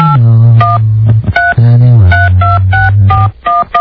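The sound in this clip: Telephone number being dialed: many short two-tone touch-tone beeps in quick, regular succession over a steady, low droning tone.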